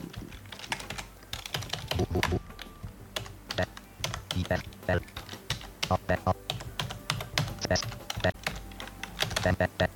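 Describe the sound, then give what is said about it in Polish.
Fast typing on a computer keyboard: many rapid, uneven keystroke clicks run continuously in quick bursts, with a few louder taps standing out. “Jak słyszymy, pisze dość szybko i on już tak ma czasem problem z wyrobieniem się ze mną, mówi synteza, ale te znaki się wpisują normalnie.”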